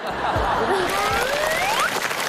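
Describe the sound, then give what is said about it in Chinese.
Audience applause at a Chinese crosstalk comedy show: dense, steady clapping that holds for the whole short stretch, with a voice and some chuckles faintly audible over it. “谢谢谢谢大家热烈的掌声。”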